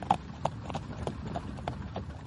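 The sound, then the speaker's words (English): A horse pulling a carriage clip-clops in a steady, even rhythm of many hoofbeats, fairly faint, with a soft rolling rumble underneath. “I've never ridden behind a horse before.”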